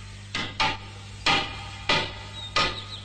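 Hammer blows striking wood: five sharp, hard knocks at uneven intervals, each one ringing briefly before it dies away. The strikes stand alone against a quiet background.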